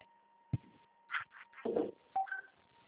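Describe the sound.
Telephone keypad tones as a number is dialed to call a group member: a few short, faint electronic beeps at uneven intervals, with a thin steady tone running under the first half.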